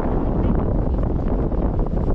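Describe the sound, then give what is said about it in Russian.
Wind buffets the microphone in a steady, loud, low roar as someone walks outdoors near the ocean. The rumble stays constant, with no clear talk. “Ветер мне в лицо, поэтому я вот спиной иду.”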